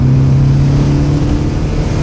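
Loud, steady engine roar from a car driven far too fast in a chase, a low, dense drone that holds throughout with no break.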